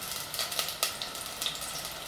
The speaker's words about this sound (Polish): dźwięk takiego smażenia będzie taki bardziej ostry, należy zdecydowanie przemieszać po prostu całą tą zawartość i to w zupełności wystarczy.